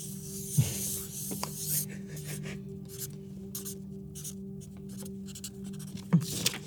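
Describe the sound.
A permanent marker draws on paper in many faint, scratchy strokes, soft rubbing bursts over a steady low hum, with a couple of louder squeaks.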